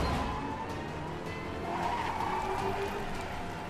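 A race car drives in a race with tires skidding: a continuous, fairly faint engine roar with squealing streaks running through it and no speech.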